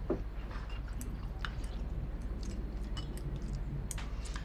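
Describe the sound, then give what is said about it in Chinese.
Someone chews calcium tablets: faint, irregular crunches and soft squishy chewing sounds repeat over a quiet background. “哥哥啊，妈妈给你买的钙片， 谢谢妈。 把这个巨可吃了。”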